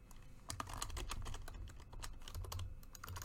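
Rapid typing on a computer keyboard: many quick key clicks in a dense, steady run over a low background hum, with no voices.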